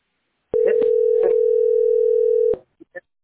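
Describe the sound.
A steady telephone tone is heard while a call is being placed, holding one even pitch for about two seconds. A faint voice sounds briefly over it, then a few short blips follow after it cuts off.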